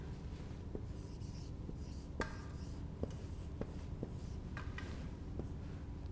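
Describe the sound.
Handwriting as the Greek word henosis is written out: faint, dry scratching strokes with a few light taps, spread unevenly over a steady low background hiss.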